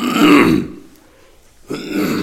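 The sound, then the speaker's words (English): Throat clearing by someone leading a church service: two rough, guttural bursts separated by a short pause, loud and with no talk over them. “Sorry, got a frog in my throat here.”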